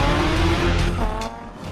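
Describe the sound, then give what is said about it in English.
Racing cars, including a Mustang, launch from the start of a street race with loud roaring engines and squealing tires. The roar eases slightly near the end. “He swings them down, and the cars take off.”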